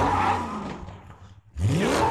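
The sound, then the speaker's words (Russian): A car's engine revs hard as it chases someone, roaring loudly. The roar dips almost to silence partway through, then surges back up with a rising pitch. “А вон там моя машина. Вот она и преследует меня.”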